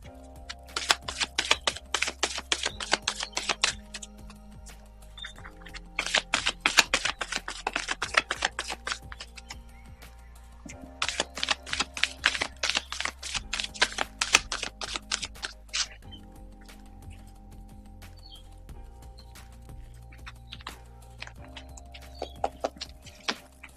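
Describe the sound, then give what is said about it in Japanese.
Playing cards being shuffled before a card reading. Three long runs of rapid, crisp riffling clicks are followed by sparser, quieter clicks and soft handling. “これからカードを引きます。シャッフルしますので、少々お待ちください。”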